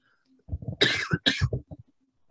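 Someone coughs twice in quick succession, two harsh, breathy bursts close together, with softer throat sounds just before and after.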